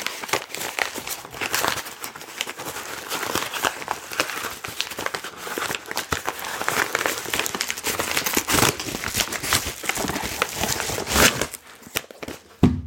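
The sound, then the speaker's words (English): Paper and packaging crinkle and rustle as a package is unboxed and an envelope opened, a continuous stream of irregular crackles and soft tearing at fairly low volume. “and I will now open that and go ahead and unbox it.”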